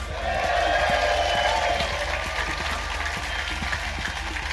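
Theatre audience applause at the Leicester Square Theatre welcoming the host on stage, a dense, steady wash of many hands clapping that swells early and holds at an even level for several seconds.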